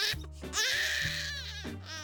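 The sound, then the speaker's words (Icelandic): A baby with infant colic cries in loud, strained wails. Several sustained cries follow one another with almost no break, the middle one rising to a higher, shriller pitch. “þá vitið þið líklega að henni fylgir alveg sérstakur grátur. Stöðugur grátur sem hræðilega sárt að hlusta.”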